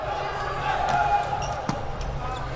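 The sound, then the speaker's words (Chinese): Volleyball serve from the back row in a match: one brief, sharp ball strike stands out over a steady wash of crowd noise. “你看三号卡德纳斯到后排发球了，”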